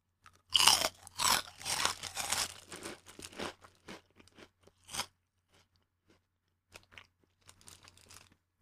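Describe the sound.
Crunchy snack food from a bag being chewed, the last bite: loud, dense crunching for the first few seconds, then fainter, scattered chews and crackles that thin out toward the end, with no talk.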